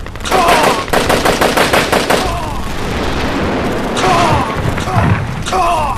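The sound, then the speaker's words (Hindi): Rapid gunfire aimed at a tank in a battlefield scene: a fast, regular string of sharp shots lasts about two seconds, then gives way to a rough rumbling roar, with brief shouting voices breaking in near the end. “वो tank निशाने पर आ गया है sir. Fire.”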